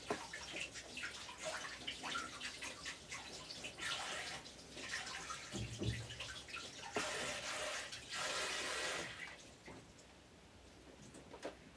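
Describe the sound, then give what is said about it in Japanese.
Running tap water splashes steadily as hands are washed. The rush is continuous, with small splashes and shifting flow, and it softens toward the end. “一旦ちょっと手洗ってきますね。”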